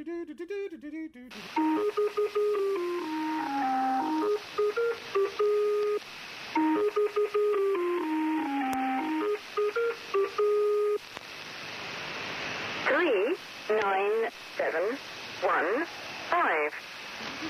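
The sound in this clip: A numbers station radio signal opens with a synthesized header tune, a few bars of an English folk song played in steady electronic tones over radio hiss. Noisier, warbling and fluttering tones follow in static.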